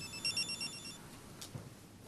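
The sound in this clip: A telephone ringing with a few short, high electronic trill pulses in quick succession that then stop, leaving a faint low background hum.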